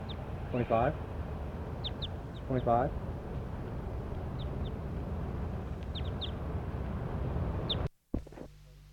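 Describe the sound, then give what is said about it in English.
Calls from a bird recorded for a numbered session: two short buzzy harmonic calls stand out over steady background noise, with faint high chirps scattered throughout and a sharp click near the end. “Start recording bird 25.”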